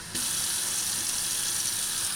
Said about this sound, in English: Turn on the tap and cool, clean drinking water comes out.